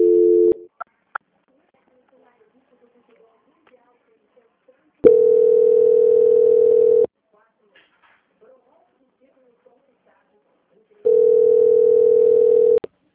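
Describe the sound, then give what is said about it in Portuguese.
Telephone tone during a call transfer: a short steady beep, then two longer two-second tones at one unchanging pitch, separated by long silences with faint clicks. “Só um minutinho que eu tô transferindo.”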